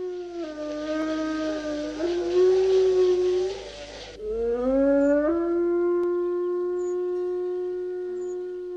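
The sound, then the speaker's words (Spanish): Wolf howling in Spain: two long, sustained tonal howls with rich harmonics, the second rising in pitch at its start and then holding steady to the end, loud and with no talk. “Que el lobo viva donde pueda y donde deba vivir, para que en las noches españolas no dejen de escucharse los hermosos aullidos del lobo.”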